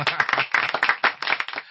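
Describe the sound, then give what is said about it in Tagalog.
Audience applause, a short burst of many quick, sharp claps at a lively, uneven pace, fairly loud and tailing off at the end. “Palakpakan!”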